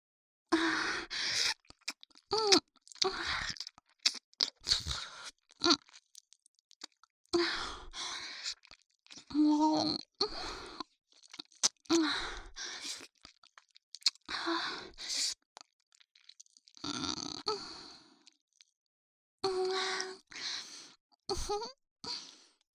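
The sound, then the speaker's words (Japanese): Close, intimate kissing and nibbling on an ear: many wet smacks, soft lip pops and crunchy mouth noises arrive in irregular clusters separated by brief silences, with no speech. “君の耳、柔らかくて美味しい。ずっとキスしたくなっちゃう。”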